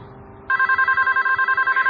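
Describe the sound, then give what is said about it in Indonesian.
A telephone rings in a room, cutting in abruptly after a faint lead-in and continuing as a loud, steady electronic trill with a rapid pulsing rhythm. “ini telepon bikin kaget aja deh ah. Ada suara telepon berbunyi di kamar itu.”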